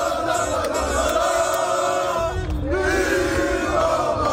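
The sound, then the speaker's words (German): Crowd cheering at a public football viewing in Düsseldorf after a Morocco victory, a dense, loud, continuous roar of many voices and shouts that carries on throughout. “Was ihr gerade hört, das war ein Public Viewing in Düsseldorf nach dem letzten Sieg von Marokko.”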